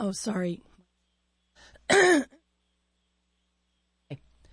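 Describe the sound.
A person clears their throat in a few short, rasping bursts with silent pauses between them.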